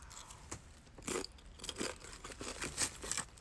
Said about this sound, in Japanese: 枝豆チップス。いただきます。